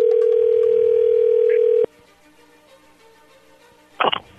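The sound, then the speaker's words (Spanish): A telephone dial tone hums steadily at one pitch for about two seconds while a call is placed. It cuts off abruptly, leaving quiet line noise and then a brief burst of sound near the end. “vamos a llamarle y vamos a ver si te manda los chocolates Ana María Tirán”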